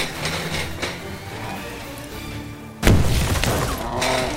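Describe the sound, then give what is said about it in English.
A pipe bomb goes off in an audio drama: one sudden, loud boom cracks through about two-thirds of the way in and leaves a rumbling, crackling wash over a tense, noisy bed of sound that was already playing. “Light that pipe bomb! I think this is our last one! Well, then make it count! Put it right at its feet! Get down!”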